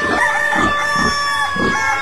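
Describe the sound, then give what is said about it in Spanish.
A rooster crows at dawn, its calls rising in repeated bursts roughly every half second over steady sustained tones, with no talking. “Un gallo madrugador al sol viene despertando”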